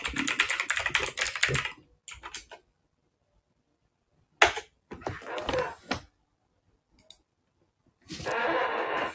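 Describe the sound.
Typing on a computer keyboard: several bursts of rapid clicking keystrokes separated by short pauses, the longest runs at the start and the end.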